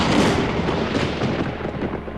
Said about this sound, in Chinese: 好响的雷声啊！